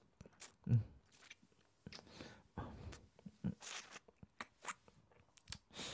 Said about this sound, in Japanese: じゃあさっき怪我してた可愛い指からいただきます。